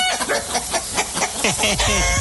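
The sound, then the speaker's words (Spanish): Hens cluck and squawk as they are chased about before being cooked into a mole, a busy run of short, loud harmonic calls, several sliding in pitch, following one another almost without pause. “ya andan correteando las gallinas porque les van a festejar con un rico mole de gallina”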